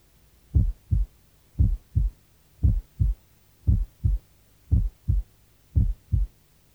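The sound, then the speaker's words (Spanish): Heart sounds heard at the left lower sternal border, with a single second sound softer than the first: six even lub-dub cycles, each a pair of low, dull thumps in a slow, steady rhythm, with no talk. “Borde external lateral izquierdo, segundo ruido único más suave que el primer ruido.”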